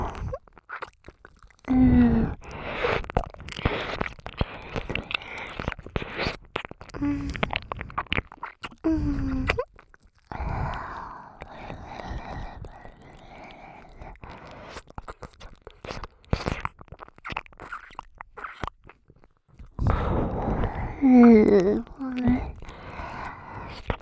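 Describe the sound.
Wet mouth sounds imitating the eating of an ear, with close smacking, nibbling and squishing in irregular bursts, and a quiet voice at moments between them.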